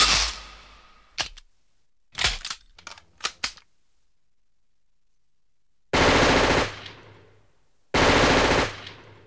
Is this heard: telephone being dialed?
no